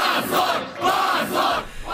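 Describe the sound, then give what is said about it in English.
Young people gathered outside a courthouse chant "shame" over and over, a loud crowd repeating the word in a steady rhythmic pulse of rising and falling shouts. “On Telegram channels, I find videos of a dense crowd of mostly 20-somethings gathered outside the courthouse. They start chanting the word shame over and over in response to the court's decision.”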